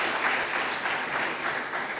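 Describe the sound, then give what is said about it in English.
A church audience applauds together in a steady, fairly soft wash of clapping. The sound holds an even level throughout, with no talk over it. “Can we just give him a round of applause as well?”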